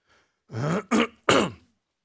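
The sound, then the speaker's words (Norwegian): Throat clearing in three rough, loud rasping bursts, the last the strongest, heard alone with no talking. “Beklager kremtingen.”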